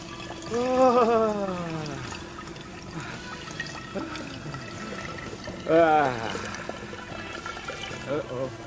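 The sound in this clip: Urine streaming into a bottle in a dubbed film scene: a continuous wet trickling hiss running steadily underneath people talking.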